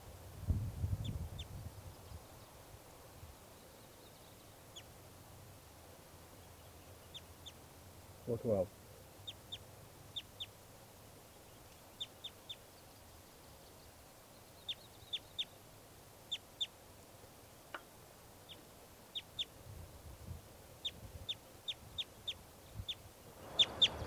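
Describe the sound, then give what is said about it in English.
Bird calls from a recording ring out as many short, high chips scattered across a long stretch of near-silence. They are faint throughout, with an occasional low thump between them. “And now this is bird 412.”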